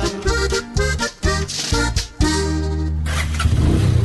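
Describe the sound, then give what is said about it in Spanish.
A Suzuki motorcycle engine revs in a few short, loud throttle blips with dips between them, then holds a steady, strong roar for the last couple of seconds. “¿Quiere una moto que de verdad le responda o una que no lo deje botado? Llegó el momento de dar el salto a Suzuki.”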